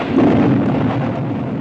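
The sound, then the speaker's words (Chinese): Thunder following a lightning flash, heard as a loud, dense rumble that rolls on steadily through the whole short clip, with no talk over it. “一道闪电将方子君的脸映得惨白”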